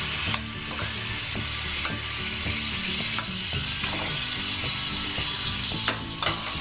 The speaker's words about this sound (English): the shrimp's starting to get cooked on around the edges. So that means one side's done. So you like to flip it all, maybe add a little bit of a wine around it.